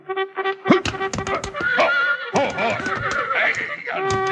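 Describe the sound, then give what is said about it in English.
Cavalry charge call played on a trumpet in a Western scene, a run of bright, brassy notes, some short and rapid, some held, with rough noisy bursts between them. “That's the cavalry charge.”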